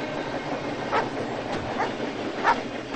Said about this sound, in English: Ben and Ingrid climb out of their parked car near a speeding train